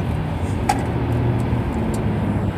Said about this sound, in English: Hold on, I have to focus on what I'm doing here. It's getting gnarly, the traffic.